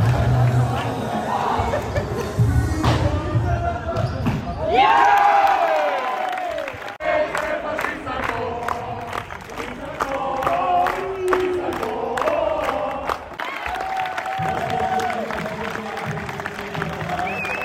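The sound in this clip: Crowd cheering for teams in a sports hall during a yearly event. Constant loud hubbub of shouts, calls and chatter with sharper bursts of cheering; many voices overlap throughout.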